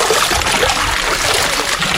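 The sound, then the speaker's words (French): Soaped laundry being rinsed in water at a wash house: a steady, dense wash of sloshing and trickling water with no clear breaks, continuous throughout. “Alors, une fois que le savon a bien été étalé, de le rincer à nouveau dans l'eau.”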